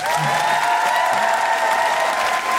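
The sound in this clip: An audience at a live Amnesty International and Guilty Feminist event claps and cheers to welcome two guests, with dense, steady applause and a few whoops running the whole length.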